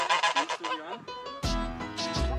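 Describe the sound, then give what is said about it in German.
Geese cackle and honk by a lake, a group of one male and three females chattering together. Loud, harsh, overlapping calls come in quick succession and run without a break. “Das ist Helmut und seine 3 Mädels. Die schnattern gerne dazwischen.”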